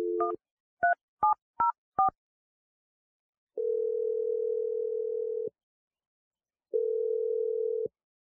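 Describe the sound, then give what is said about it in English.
Telephone keypad tones as a number is dialed: five short, clipped beeps in quick succession, then two long, steady ringback tones separated by a pause. “So I'm going to dial Sandra's number.”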